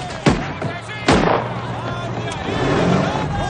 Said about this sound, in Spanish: unos tipos disparan al aire desde una camioneta